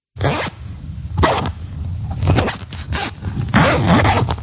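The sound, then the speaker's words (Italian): A clothing zipper is zipped in a series of quick, raspy strokes, several short bright zips following one another with brief gaps between them, loud and alone. “Sono una cerniera.”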